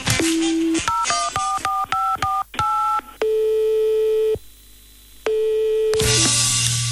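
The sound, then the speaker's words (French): Telephone number being dialed on a keypad: a short tone, then a quick run of many bright touch-tone beeps, followed by two long, steady ringing tones, all loud and clear with no voices. “le temps de donner un petit coup de fil à Mickaël et on est parti”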